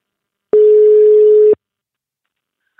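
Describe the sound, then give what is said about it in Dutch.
One steady, mid-pitched telephone ringing tone sounds for about a second as a call is placed, then stops abruptly into silence. “wij gaan bellen met oudkeeper Ruud Swinkels”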